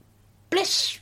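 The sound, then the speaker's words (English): A single sneeze bursting out abruptly after a half-second of near silence, a sharp loud onset that holds briefly before fading. “That was just a sneeze, wasn't it?”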